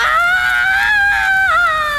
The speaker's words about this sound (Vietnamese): Tiếng hét thất thanh xé toạc màn đêm, nhưng nó tắt ngấm gần như ngay lập tức.